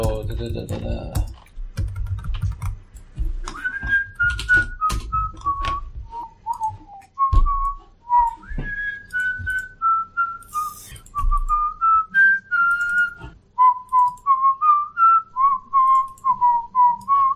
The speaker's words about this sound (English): It's called whistling.